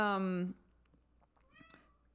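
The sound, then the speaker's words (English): A hungry cat meows: one loud, drawn-out meow, then a quieter, shorter meow after a brief lull. “What's he doing? Meowing? Just a second. Yeah, I think he's hungry.”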